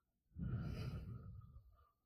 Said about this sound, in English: And all together, right now, we will breathe in air. And slowly let it out.